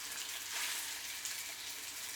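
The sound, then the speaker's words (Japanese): Pork stir-frying in a heated pan gives a steady, even sizzle, a soft continuous hiss with no pauses and no voices. “鍋。温まった。 豚さん入れて炒める。豚さん炒めつけます。”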